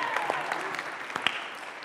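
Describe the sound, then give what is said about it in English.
An audience claps in a short, faint burst of scattered handclaps with irregular spacing, while a voice is heard beneath. “I feel like we should, like, clap or something.”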